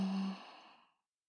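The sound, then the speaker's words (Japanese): One breathy exhale during a guided breathing exercise, sigh-like, starting strong and tapering to silence in about a second, with no voice. “大きく息を吸って、少し止めて、ゆっくり吐いて、”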